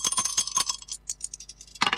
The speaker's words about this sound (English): Let's throw the dice and see which one we're going to play.